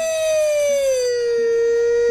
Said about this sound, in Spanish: ¡La sirena! ¡Alarma!